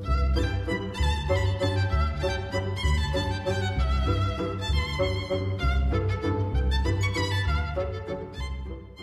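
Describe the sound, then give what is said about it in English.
A very fast waltz from The Soldier's Tale, counted in three: a dense, lively ensemble of bright violin lines over a steady bass pulse in quick triple time, played continuously without talk. “The next dance the soldier plays for the princess is a very fast waltz. You will note that the tango was counted in two, but the waltz is counted in three and sounds like this.”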